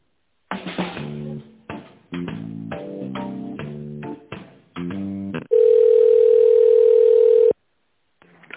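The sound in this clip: Telephone ringing tone while a call is transferred and connected: a quick electronic melody of many short notes gives way to one loud, steady tone lasting about two seconds, then a brief faint blip.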